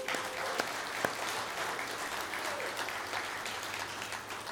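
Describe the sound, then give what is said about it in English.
An audience at Kahului Baptist Church applauds to welcome a visiting Louisiana team from Jefferson Baptist Church in Baton Rouge. The clapping is steady and dense and keeps going throughout. “a very special welcome to our Louisiana team who is here from Baton Rouge, Jefferson Baptist Church. Give them a hand.”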